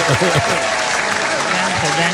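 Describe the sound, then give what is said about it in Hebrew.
Applause from a group during a filmed quiz-style session, a steady wash of clapping with voices talking and calling out over it. “מגיע לכם כפיים.”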